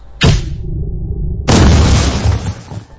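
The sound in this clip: An underbarrel grenade launcher fires with a sharp bang that rings briefly, then an explosion hits in a loud, long, rumbling blast, with no talk.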